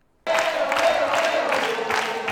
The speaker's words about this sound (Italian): Tifo da stadio e sala del Teatro Troisi pienissima.